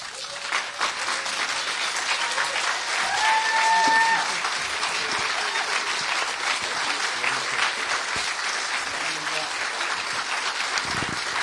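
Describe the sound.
Sustained audience applause welcoming Mario Murillo, steady, dense clapping that carries on evenly for about eleven seconds, swelling slightly early on before settling.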